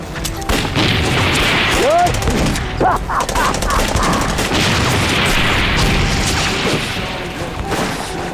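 Dense gunfire from a war drama battle scene against invading troops: many rapid shots and bursts crackle without pause for the whole clip, loud and continuous, with heavier booms mixed into the volley.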